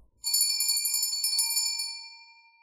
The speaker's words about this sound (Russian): В прихожей раздался звонок.